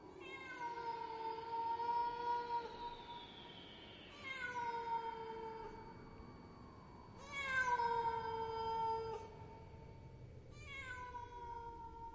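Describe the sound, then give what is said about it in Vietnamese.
A stray cat meows in the distance at night: four long, drawn-out cries, each sliding downward in pitch, with quieter pauses between them and no other sounds. “Trời càng lúc càng về khuya, phía xa xa trong đêm tiếng con mèo hoang kêu lên văng vẳng.”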